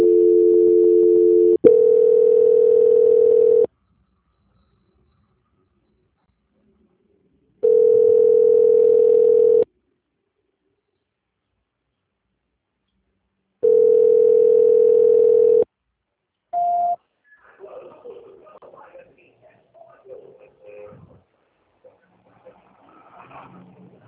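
Telephone line tones play while a customer service call is transferred to a quality-control department: a steady tone, then three even beeps of about two seconds each separated by silences, a brief short beep, and faint scattered sounds afterward.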